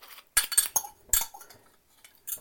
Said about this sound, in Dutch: Nou, even de garde.